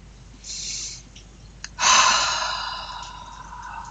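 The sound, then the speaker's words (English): Deep breathing: a soft breath drawn in through the nose, then a louder, longer rushing exhale out through the mouth that slowly fades. “three big deep breaths in through the nose and out through the mouth”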